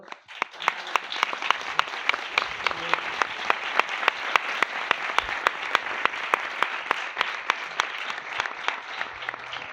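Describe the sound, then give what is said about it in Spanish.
Audience applause at an animation festival for a visiting pin-screen animator. Many hands clap in a fast, dense, even patter that holds steady for nearly ten seconds with no voices. “me gustaría darle un aplauso a Alexander Moyer”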